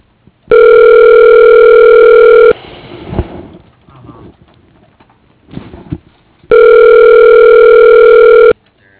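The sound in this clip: Two long, steady telephone tones sound while a call is transferred to voicemail. They are loud and even, each lasting about two seconds, with several seconds of faint, irregular noise between them.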